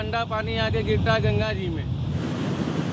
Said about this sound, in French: Voilà, ce sont les eaux usées de la ville. C'est la plus grosse sortie d'égout de Varanasi. Et il y en a une autre plus grosse encore là-bas, après le pont. Il y en a 36 en tout, comme celle-ci. Et ça coule 24 heures sur 24.